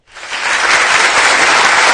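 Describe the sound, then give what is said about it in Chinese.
Applause cued at the start of a live-streamed song performance, bursting in abruptly and holding as a loud, dense, steady roar of clapping. “开始， 开始，掌声。”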